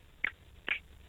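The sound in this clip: A finger flicks hard against the palm, making three sharp, dry clicks spaced evenly apart, each brief and crisp against near silence.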